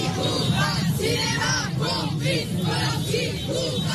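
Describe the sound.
A crowd of about a hundred protesters outside the Salle Pleyel shouts and chants loudly, their voices rising in rhythmic, repeated bursts roughly every half second.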